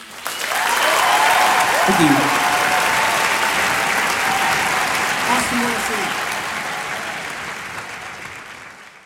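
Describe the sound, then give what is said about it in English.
Enthusiastic live audience applauding after an a cappella performance, loud sustained clapping that swells quickly and slowly tapers, with a brief spoken thanks over the ovation. “Obviously a live recording, and you can hear the people very enthusiastic in the background.”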